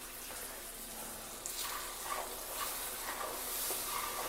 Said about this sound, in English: now we're adding in 1/4 cup of water. And now you can hear the noise it's making.